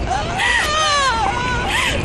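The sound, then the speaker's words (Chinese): An eight-year-old child cries, a high, wavering wail that rises and falls continuously and loudly. “别哭，孩子，别哭，别哭”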